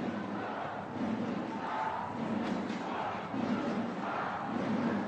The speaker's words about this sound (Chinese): 虽然是在宜春的主场啊，但我们这里也能听到啊，南昌队一直在喊南昌必胜。 是南昌的球迷，也是今天远征来到宜春为自己的球队加油。